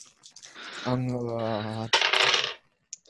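Dice are rolled in a tabletop role-playing game, making a short, bright rattling clatter after a drawn-out vocal sound. A single faint click follows a moment later.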